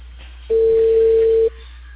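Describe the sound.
Ringback tone of a telephone call being placed: one steady, loud tone lasting about a second, set over a low constant hum, with no talking.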